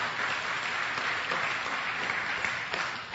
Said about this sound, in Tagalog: Palakpakan natin ang ating Panginoong Jesus.